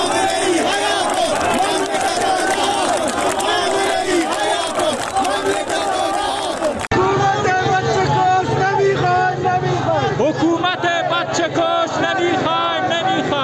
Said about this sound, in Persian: این صدای مردم در زاهدان در امروز بود، یکی از جمعه هایی که بعد از جمعه خونین زاهدان همچنان صحنه اعتراضات مردمی هست.